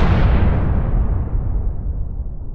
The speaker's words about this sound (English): I always love the explosions there.